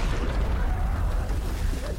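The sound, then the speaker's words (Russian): A shell burst erupts behind a blood-stained soldier climbing out of a ravine in a war film, heard as a deep, sustained low rumble that rolls on steadily for two seconds with a faint hiss above it. “На его форме пятна крови. За ним поднимается разрыв.”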